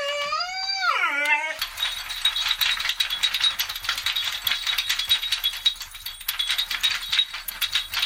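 Busy metallic jingling and rattling from a dog's collar and food bowl runs continuously for several seconds, opening with a short, loud howl that slides downward in pitch.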